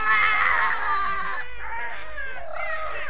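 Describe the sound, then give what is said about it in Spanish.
Children crying in a children's audio story, several high voices wailing and sobbing together in a continuous, overlapping, tearful outburst with no pause. “Ni hace falta que les cuente que todos se ponen a llorar y con grandes lagrimones.”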